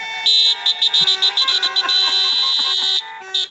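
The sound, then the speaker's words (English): Car horns honk loudly in a rapid string of many short, tonal blasts, then a long held blast and one final short toot. “It's, yeah, you know, honking horns.”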